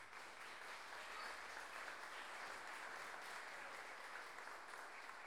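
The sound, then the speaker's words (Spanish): Audience applause at a payador counterpoint tournament: an even, unbroken wash of clapping, faint and steady from start to finish. “Don Francisco Astorga, por quien pido un fuerte aplauso.”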